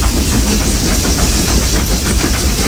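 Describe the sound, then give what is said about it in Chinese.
A steam locomotive, one of the last still in service, running at a coal mine in Xinjiang. It makes a loud, continuous hissing roar with a faint, regular chuffing pulse underneath. “世界上最后几列仍在运营的蒸汽机车，执着地奔驰在历史中。”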